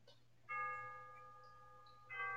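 Chimes ring out in two clear struck tones, the first holding and slowly fading for well over a second before a second strike sounds near the end. The tones are bright and bell-like over a faint low hum, with no voices.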